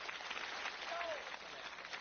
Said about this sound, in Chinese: 您要是爱听，您给我鼓鼓掌。